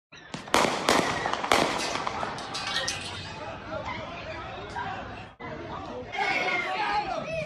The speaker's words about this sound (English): Oh, it's working. Here we go. Ooh, there's the shots.